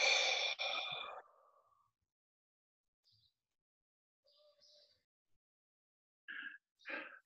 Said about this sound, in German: ich atme immer mit der Nase ein, ein bisschen kraftvoll. Und dann entspannt ausatmen durch den Mund.